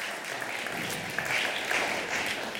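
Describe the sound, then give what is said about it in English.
An audience applauding, the steady clapping of many hands held at a moderate, even level throughout. “I know, you'll really be clapping for her later on when you get to know me.”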